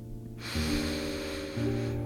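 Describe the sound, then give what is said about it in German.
A long, deep breath drawn in during a guided breathing exercise: a steady, airy inhale rising in loudness, over soft sustained tones that shift in pitch partway through. “Nun atme noch einmal tief ein”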